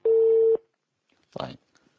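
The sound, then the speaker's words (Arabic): A telephone busy tone after a call cuts off: one loud, steady, pure beep about half a second long, then a pause and a short burst of voice. “طيب انقطع الاتصال تقريبا.”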